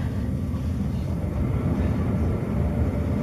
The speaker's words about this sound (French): Il y a de moins en moins de monde dans la ligne de train, en tout cas dans le wagon dans lequel je suis.